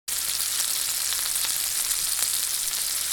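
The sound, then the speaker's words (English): French fries frying in a deep fryer, a steady, dense hiss of sizzling oil with fine crackles that holds an even level throughout, with no voices. “A chef has mentioned that he can tell how long the French fries have to remain in the fryer from the sound they make.”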